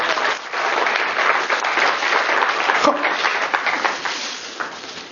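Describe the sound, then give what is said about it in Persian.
An audience applauds in someone's honour with dense, steady clapping that keeps an even level for about five seconds. “سپاسگزارم. به افتخارشون دست بزنید.”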